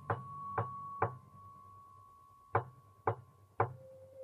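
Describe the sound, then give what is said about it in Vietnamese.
Knocking on a door comes in two sets of three sharp knocks separated by a pause. The second set lands slightly harder than the first, and a faint steady tone hums underneath. “cô đã giật lùi mình lại mấy bước vì tiếng gõ cửa. Lúc đầu thì rất dè dặt, sau thì lớn dần lên thành tiếng.”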